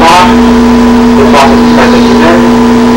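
A car engine driving and revving: a loud, steady, low droning hum with a few brief surges of revs over about three seconds.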